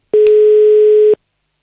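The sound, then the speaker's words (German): A single telephone tone held for about one second at a steady pitch, alone, then silence. “Die Nummer wählen wir. Und dann hoffen wir, dass jemand abhebt.”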